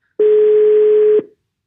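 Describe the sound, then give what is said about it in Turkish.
A single telephone tone heard while dialling someone: one loud, steady, mid-pitched electronic tone lasting about a second, then silence. “Bugün Mert'i arıyorum.”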